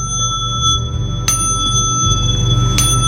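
Tibetan bells or a small singing bowl ringing: bright metallic tones sustain throughout, with two sharp strikes that each set off a fresh shimmering ring. No voices.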